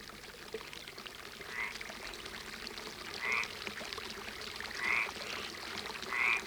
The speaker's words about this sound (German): In den Feldern unterhalb des Parks, dessen hohe alte Bäume das Schloss umgeben, ein Wasserbecken und Frösche, die aber nur einen kurzen Dialog halten.